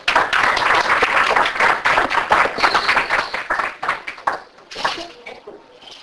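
An audience applauds to welcome a Texas poet laureate to the stage. Dense, crackling clapping runs strong for about four seconds, then thins into scattered claps and fades out.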